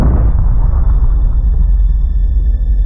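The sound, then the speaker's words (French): An atomic bomb explosion over Hiroshima in 1945 erupts as a very loud, deep roaring blast. Its bright initial burst quickly dulls into a long, sustained rumble that keeps churning to the end. “une gigantesque boule d'enfer apparaît au-dessus d'Hiroshima pour ensuite pulvériser la ville”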